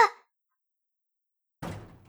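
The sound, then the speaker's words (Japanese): A door is shut with a single heavy thud that decays quickly, following a short stretch of silence. “なんで、なんで閉めるの？お願い、入れてほしいの。お願い、入れて。”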